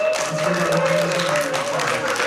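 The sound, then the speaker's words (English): Audience applause at a Pajamas and Pancake Party festival event, given for mothers: steady, dense clapping with a voice speaking over it. “Mothers are everything. Let's give our mommies a round of applause.”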